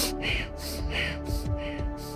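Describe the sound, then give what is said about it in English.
Rapid, forceful breaths of Kundalini breath of fire yoga breathing. About four sharp, hissing exhales come in quick rhythm over a sustained steady tone. “begin breath of fire”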